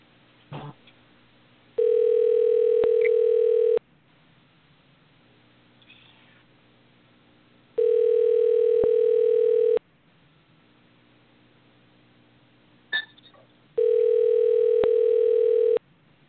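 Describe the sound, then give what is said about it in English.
A telephone call rings out with a steady ringback tone. Three long, even tones of about two seconds each are separated by roughly four seconds of near silence over faint hiss. “Let's see if I can get him on the phone.”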